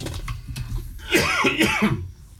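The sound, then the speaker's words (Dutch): Someone coughs: a short, rough, throaty burst in the middle, with a brief voiced rasp trailing off, over a low background murmur. “Oh! Nou, moet ik even hoesten.”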